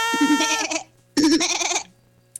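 A goat bleats twice, each call loud, quavering and nasal, separated by a short pause, over a steady low hum.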